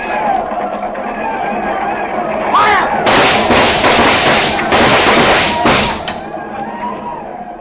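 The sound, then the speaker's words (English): Loud, dense gunfire in a frontier fight with attackers as horses are hit, many overlapping shots packed into about three seconds, with background commotion before and after. “Hold your fire. Hold it.”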